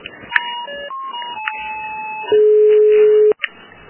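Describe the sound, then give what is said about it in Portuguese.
Electronic telephone tones while a call is being transferred: a few short beeps at changing pitches, then a long, steady, loud tone of about a second that cuts off abruptly. “Você aguarda um minutinho que eu vou transferir a ligação?”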